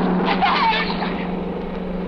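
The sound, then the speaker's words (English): A car speeds away in a big hurry: a loud, steady engine roar fills the whole moment, with a brief rising whine near the start. “Whoever's driving that car was in a big hurry. Oh, he almost hit you.”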